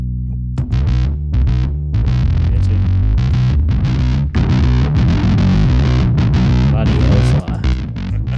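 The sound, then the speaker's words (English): Heavily distorted bass guitar, a vintage-style P bass run through two fuzz pedals, an octave pedal and an EQ, plays a loud, thick riff of many low notes with a few brief gaps. “That was all four things. It's two fuzzes, an Octavia, and an EQ.”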